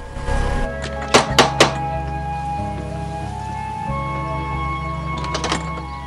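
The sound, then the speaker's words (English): Knocking on a house door: three sharp raps in quick succession, then a few fainter taps later, all over a steady low humming background. “pulls up at another house and knocks on the door.”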